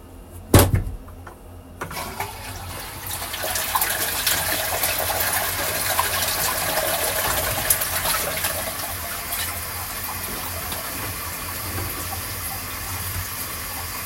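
Water from a washbasin of urine gushes out as it is poured away: a sharp splash at the start, then a steady rushing flow that runs without voices until the end.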